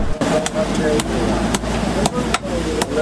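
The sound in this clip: A blacksmith hammers cold iron sheets in a smiths' bazaar shop, striking a run of sharp metallic blows at an uneven, unhurried pace over a constant low background hum.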